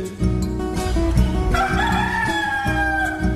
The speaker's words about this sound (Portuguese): Quando o galo carijó solta o canto do bule,